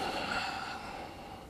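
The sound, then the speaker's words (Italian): Soft, steady breathing during an abdominal and pelvic floor exercise with a squeezed ball. The breath is a faint, airy rush that fades slightly toward the end, with no voice. “Poi inspirando rilasso le gambe, rilasso l'addome e espiro. Inspiro, espiro.”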